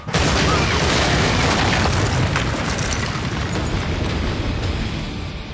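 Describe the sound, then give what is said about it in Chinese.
Explosion of a small, remotely detonated warehouse in a drama: a sudden blast that swells at once into a loud, sustained roaring rumble, fading slowly over about five seconds. “说完呢，还遥控炸了一个没什么人会去的小仓库。”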